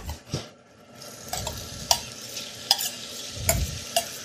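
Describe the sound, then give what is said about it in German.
A vegan scrambled egg mixture fries in hot oil in a pan, giving off a soft, steady sizzle. A utensil scrapes and clinks against the pan several times as the mixture is stirred. “Das Öl wird langsam heiß. Ich gebe jetzt hier mal diese Mischung dazu.”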